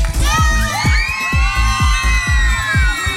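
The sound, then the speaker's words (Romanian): A crowd cheers and applauds the Radio Zoo team, with high shouts and whoops over regular heavy thumps that beat at a steady, quick rhythm through the whole stretch. “Aș vrea să aplaudați toată echipa Radio Zoo și să țâpuriți.”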